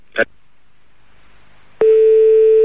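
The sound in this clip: A steady telephone line tone, heard during a suspected switchboard fault with a double call on the line. A brief burst of noise comes first, then a loud, even single-pitched tone starts and holds unbroken to the end.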